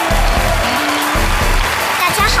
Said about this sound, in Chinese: 掌声欢迎，欢迎你们。